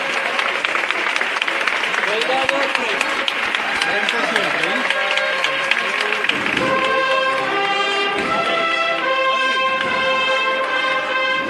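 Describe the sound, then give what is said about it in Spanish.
A Holy Week brotherhood band in Seville plays the Marcha Real, with sustained brass-like tones entering partway through over a continuous, loud wash of crowd applause. “Desde el interior, tocando la marcha real. La agrupación de la hermandad.”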